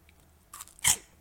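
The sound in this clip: Quiet crunching of a small crunchy cheese snack as it is bitten and chewed: a light crackle, then one sharper, louder crunch. No voices.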